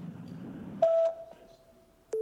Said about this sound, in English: Please leave a message at the tone and I'll return your call as soon as I can.